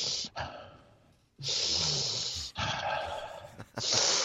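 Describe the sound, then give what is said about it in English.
A voice imitates loud nasal sniffing, mimicking a man pushing his nose into a glass of chilled white wine. Several long, breathy inhalations follow one another with short pauses between. “Cynthia comes with her friend who's extremely into smelling wine because he gets a glass of wine. He just puts his nose like in the glass.”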